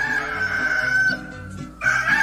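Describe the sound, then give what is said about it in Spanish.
A rooster crows in a drawn-out, wavering call that fades, then a second crow starts loudly just before the end. “a levantarse, que ya cantó el gallo”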